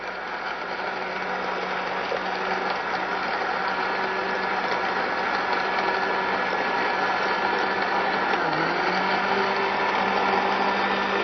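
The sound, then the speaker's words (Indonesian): Steady motor whir of a blender blending ingredients with about 200 cc of water until smooth, a constant droning hum that holds level with a brief dip near the end, with no voices. “sekitar 200 cc airnya, kemudian baru kita blender sampai halus.”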